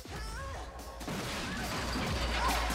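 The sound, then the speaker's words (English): A fence collapses with a loud crash after someone is kicked against it during a sword and kung fu fight, the smash bursting in over ongoing music and lingering as clatter. “He kicks Natalie against a fence, which collapses.”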